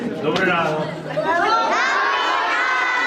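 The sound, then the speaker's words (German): Children cheer and shout together at the start of the school year at a Ukrainian school, a bright burst of high, excited voices with some rising squeals, sustained throughout. “Ja, aber so fröhlich und unbeschwert, wie das hier tönt, war es wohl nicht an allen Schulen in der Ukraine.”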